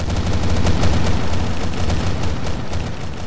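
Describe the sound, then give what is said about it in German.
Gunfire from four bolters in a Warhammer 40K scene, heard as a sound effect: a loud, dense, continuous roar of rapid shots with no clear gaps between them, and no voices. “Dann werden vier Bolter auf euch gerichtet und geschossen.”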